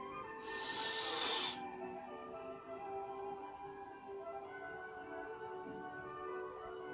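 A deep breath gives a bright, breathy hiss lasting about a second near the start. After it comes a faint, steady tonal background that continues to the end.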